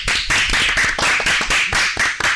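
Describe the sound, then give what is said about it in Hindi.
Audience clapping in unison after a right answer at a children's quiz. Sharp, loud claps repeat in a steady rhythm with no talk. “बिल्कुल सही जवाब, जोरदार तालियां हो जाएं।”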